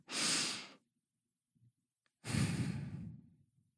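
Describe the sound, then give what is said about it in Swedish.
A deep breath drawn slowly in and let out, heard as two soft breathy swells. The second is a longer, sighing exhale, with a short quiet gap between them. “Så vi tar ett andetag tillsammans.”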